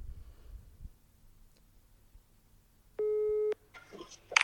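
A telephone tone from an outgoing call: one steady electronic beep lasting about half a second, rising clearly above faint background noise.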